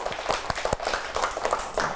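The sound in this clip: Children in a classroom clap for a classmate who answered correctly: a loose patter of distinct, sharp claps at irregular intervals, fairly loud and uneven rather than a smooth roar.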